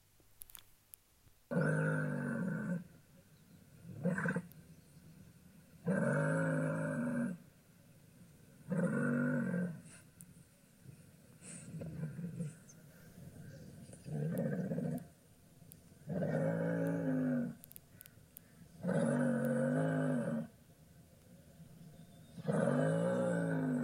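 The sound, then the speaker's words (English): A muskox roars: a long series of deep, drawn-out harmonic roars, each lasting about one to two seconds, separated by short pauses in a fairly steady rhythm. “Now, I didn't know muskoxen can roar, but it sounds like this.”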